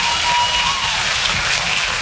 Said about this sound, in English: You're damn right we should applaud.